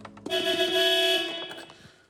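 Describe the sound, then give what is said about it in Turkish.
A car horn sounds after a new leather-covered steering wheel is fitted: one loud, sustained, bright honk that holds steady for about a second before fading out. “Bakalım kornası çalışıyor mu?”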